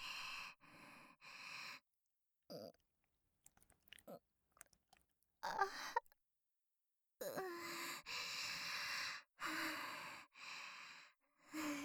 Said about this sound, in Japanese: よかった。じゃあ泣くね。